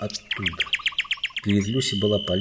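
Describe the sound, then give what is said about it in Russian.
A nightingale sings a rapid run of repeated high chirping notes, bright and evenly spaced, with narrated speech beneath and after the trill. “Вдруг где-то неподалеку послышалась соловьиная трель.”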